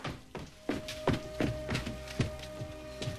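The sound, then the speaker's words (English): Footsteps run down wooden stairs inside a house, a quick, evenly spaced series of hollow thumps and knocks, moderately faint, with no talking. “Back at the house, Rob runs down the stairs.”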